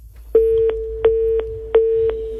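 A telephone busy tone sounds after a call disconnects: steady mid-pitched beeps repeat at even intervals, with three full pulses and a fourth just starting, and no voices.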